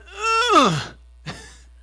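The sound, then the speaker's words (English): A man's voice imitates the groan of getting up from a chair with a drawn-out, strained moan that slides down in pitch. A brief, softer grunt follows. “and then you groan and you get out of the chair”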